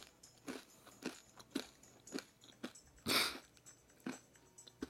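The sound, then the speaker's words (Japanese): Crunchy bites into Dontacos tortilla chips: a series of sharp, dry crackling bursts in a loose, uneven rhythm, with one longer and louder crunch toward the end. No one talks. “ちょっとドンタコス食べていい”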